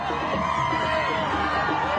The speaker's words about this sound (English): A bus carrying hostages is greeted by crowds on their return to Israel from Gaza.